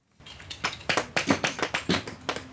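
A hammer taps small limestone slabs apart at a fossil dig in a quarry. A quick series of about ten sharp, dry knocks lands in an uneven rhythm, with no voices.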